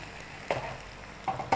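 Egg whites fry in a pan beside stir-fried ingredients: a steady soft sizzle broken by a few louder scraping stirs.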